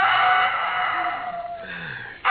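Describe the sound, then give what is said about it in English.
A rooster crows on a farm, one long strained call that holds steady and then drops in pitch at the end. It is heard alone, with a thin, muffled tone. “Oh, I could have slept if it hadn't been for that darn rooster.”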